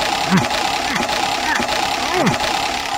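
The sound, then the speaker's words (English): A spinning prize-wheel sound effect gives a loose series of ticking clicks and swooping tones over a constant whirring bed. “you just want to make me make this wheel spin sound effect go forever. Go ahead. Go ahead. Make it spin some more.”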